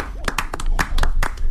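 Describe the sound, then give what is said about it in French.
A few scattered, sharp hand claps from an audience applauding a guest, loud and irregularly spaced rather than a full ovation. “Franchement, on peut l'applaudir. Bravo.”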